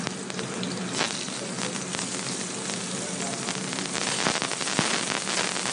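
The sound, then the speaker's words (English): Shrimp sizzling in a hot pan: a steady, fairly quiet hiss of frying with scattered small pops and crackles, running throughout without talk. “Gonna go and add the shrimp to the pan here.”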